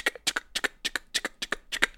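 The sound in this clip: A retractable pen is clicked over and over, many quick, fairly faint paired click-clack snaps in a rapid, fidgety rhythm.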